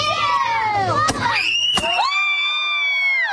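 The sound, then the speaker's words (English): A blue powder cannon fired at a gender reveal party blasts a dad, heard as two sharp bangs cutting through loud, high screaming and shouting from the gathered crowd. “Oh no, the blast of blue powder hits Dad right where the sun don't shine. Down Dad goes.”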